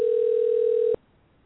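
A telephone dial tone sounds after the handset is hung up: a single loud, steady hum holds for about a second, then cuts off abruptly into near silence.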